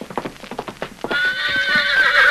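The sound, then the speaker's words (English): A horse named Victor clops its hooves in a quick uneven rhythm, then breaks into a loud, drawn-out whinny with a shrill, wavering pitch. “There's Victor. Hello there, Victor. Gosh, it sure is good to see you. There's a horse for you, Jackson.”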